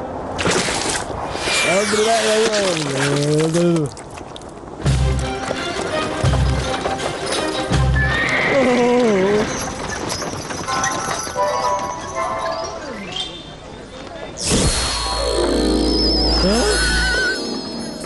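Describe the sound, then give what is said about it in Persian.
Carriage horses clip-clopping on a crowded street, with steady hoofbeats running through the whole stretch beneath a loud, busy mix of other noise and voices. “در سرک پر از ازدحام با اسبهای گادی خود رسیده بود، سرعتش را کم کرد”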